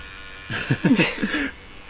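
A tattoo machine buzzes in a short burst of about a second, a pulsing, fairly quiet electric hum with uneven bumps in loudness, starting and stopping abruptly.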